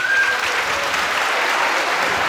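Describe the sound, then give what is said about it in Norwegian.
Applause from the audience at a Christmas show: dense, steady clapping that holds at an even level for the whole stretch, with no talk over it. “Så jeg synes vi skal gi dem en applaus.”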